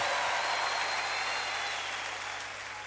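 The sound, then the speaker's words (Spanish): Audience applause gives a dense, steady wash of clapping for about three seconds and eases off slightly at the end, with no voices. “Fuerte aplauso, por favor.”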